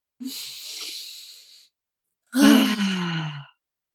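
A deep breath taken and released: a long, airy inhale, then after a short pause a louder, sighing exhale carrying a low voiced groan that sinks slightly in pitch.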